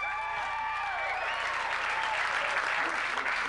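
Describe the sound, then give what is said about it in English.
Audience applause fills the whole clip: dense, steady clapping from a crowd, loud and continuous, swelling slightly toward the end. “How many people by applause are single?”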